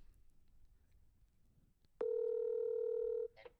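An outgoing telephone call ringing: after near silence, one loud, steady buzzing ringback tone sounds for just over a second and then stops.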